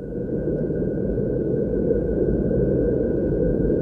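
A specialists' recreation of the mysterious worldwide hum: a steady, low droning rumble with a thin, faint higher tone riding constantly above it, unchanging and alone for the whole stretch.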